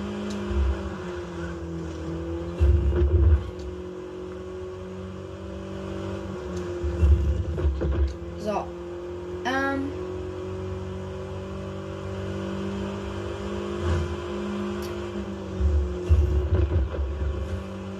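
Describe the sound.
Engine of a lowered car speeding through a city in a video game, a sustained droning hum broken by a few heavy low revving surges.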